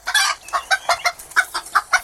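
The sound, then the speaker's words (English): Chickens clucking at feeding time in a flock of about fifty, mostly hens with three cockerels: a quick run of sharp, bright clucks in short regular bursts, steady and fairly loud, with no talking. “Now, how many chickens have you got here? About 50. There's 3 cockerels and about 47 hens.”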